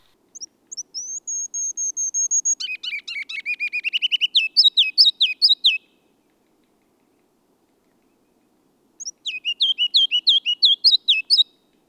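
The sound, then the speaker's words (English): Song of a ruby-crowned kinglet, a small forest bird. It opens with thin, high, clear notes, then breaks into a rapid warble of loud repeated phrases, and is sung twice with a pause between. “Ruby-crowned kinglets also have a high-pitched, loud, and somewhat complex song. It begins with several high, clear notes and concludes with a rich warbling of repeated phrases.”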